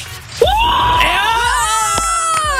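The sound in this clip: A loud shout of joy after winning an electric scooter: one long, sustained cry that swoops upward in pitch at the start, then holds a high, strained tone to the end.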